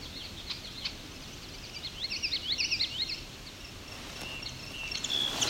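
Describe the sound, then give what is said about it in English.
A song sparrow singing: faint, rapid bursts of high chirping notes in two short phrases over a steady background hiss. “There's a song sparrow”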